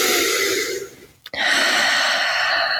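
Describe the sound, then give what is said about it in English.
Slow breathing during a relaxing exercise routine: a long, airy breath that fades, a brief pause, then another long, steady breath of hissing air, with no talk. “we're just going to take a few breaths in. Here. Nice breaths in and out.”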